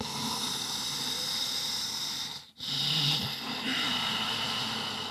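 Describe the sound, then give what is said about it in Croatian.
Slow, controlled breathing through a tightened throat, each breath a steady, hissing rasp. Two long breaths run back to back, separated by a brief pause near the middle. “zapravo stisneš grlo. E, I onda vučeš dah tako da e, ti jednako traje udah i izdah, recimo 6 sekundi ili 8 sekundi. Ti to zvuči otprilike ovako.”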